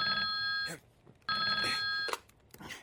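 A telephone ringing on an outgoing call: two long, buzzy rings with a pause between them, fairly faint, followed by a few soft clicks.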